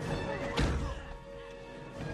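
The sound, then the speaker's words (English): A fist punches through a car window during an attack scene in a horror film, giving one sharp thumping crash near the start over a dense, rumbling soundtrack. “Wow, he punched through the window. Yeah, so Ghostface is attacking the car that Sidney was leaving in, and he's killing the cops.”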